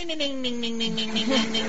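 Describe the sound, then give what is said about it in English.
A ringtone for an incoming phone call, a buzzy, nasal, warbling voice-like tone with rapid rhythmic pulsing and a slight downward glide in pitch, lasting under two seconds. “Sorry, I think I got a call coming in.”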